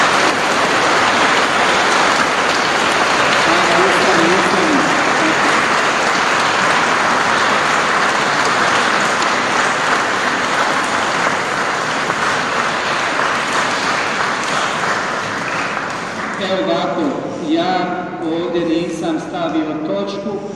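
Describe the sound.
Audience at a church prayer gathering claps for a woman, long sustained applause like heavy rain that continues at an even level before easing as a voice begins talking near the end.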